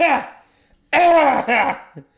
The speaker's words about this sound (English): Just coughing out the rage. Cough out the rage. Do it with me. It's like yoga, but just coughing.